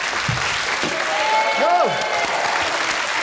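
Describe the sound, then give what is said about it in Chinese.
Audience applause greets a singer congratulated on releasing a record at a Cantonese stage event. It is a steady, dense clatter of clapping throughout, with a voice calling out over it. “嚟緊咧有第二個掌聲嘅，恭喜曬你啦！出唱片啊！”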